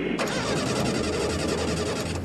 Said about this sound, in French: Mais appuie sur l'accélérateur là. Calmez-vous. Ah, ça vient. Mais non, ça part pas.